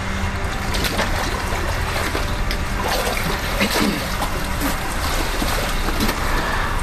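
Water sloshing and churning in a swimming pool, a dense continuous wash of noise with small splashes and bubbling, steady and fairly loud throughout.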